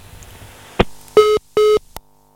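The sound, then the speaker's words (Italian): Telephone ringing on an Italian radio call-in line: a sharp click, two short buzzing ring tones at a steady pitch, then another click. “Salutiamo Cecilia e in programma vediamo un'altra telefonata, chi è?”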